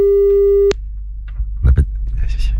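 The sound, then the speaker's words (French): An outgoing telephone call's ringing tone holds as a steady, loud, buzzing pitch, then cuts off abruptly with a click. Soft voices follow on the line. “Attention, attention, on appelle.”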